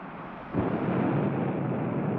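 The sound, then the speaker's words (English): A rocket blasts off with a sudden, deep, roaring rumble that surges in after a quieter hiss and then holds steady and broad. “Can he survive that blast off?”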